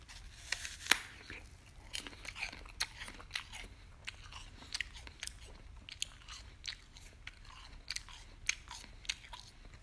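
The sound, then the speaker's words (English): Crisp crunching of a McIntosh apple being bitten and chewed, many sharp, faint crunches in an irregular rhythm with quieter chewing between them. “I did just take another bite of the Macintosh. Wow, there's definitely a difference.”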